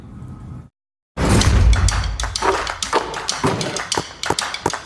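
A basketball bounces for a game of horse. After a brief opening sound and a short silence, many sharp thumps and taps follow at an uneven rhythm.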